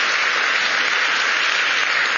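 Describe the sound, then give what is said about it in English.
A crowd at an Independence Day gathering claps for everyone enduring the heat. The applause is thick and even, with a constant wash of hands and no break or change in level. “Can we clap it up for all of us who bear the heat?”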